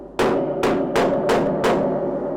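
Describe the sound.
Five loud, sharp hammer blows from a piano maker working on an original Gebrüder Trau piano. Each strike is followed by a resonant ring as the piano strings vibrate.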